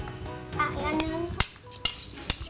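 Spoons and dishes clink while food is shaped with a spoon instead of by hand, giving a few sharp metallic taps over a low, busy kitchen background.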